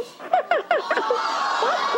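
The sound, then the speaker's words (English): A Tickle Me Elmo toy laughing: a quick run of high, bouncy laugh syllables that each fall in pitch, followed by a few softer chuckles. “And then you look, he shakes, he laughs. See, he's shaking. It's called Tickle Me Elmo.”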